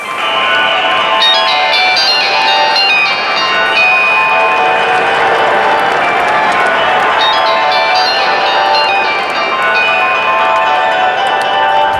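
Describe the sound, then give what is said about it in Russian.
Thousands of Nokia mobile phones ring together in a Finnish football stadium, 8,500 handsets sounding at once: a loud, continuous wall of overlapping bright ringtone melodies layered over steady crowd noise. “незабываемую звуковую картину, которую подарили нашим слушателям 8 500 владельцев мобильных телефонов Nokia, которые, собственно, являются народным музыкальным инструментом современной Суоми.”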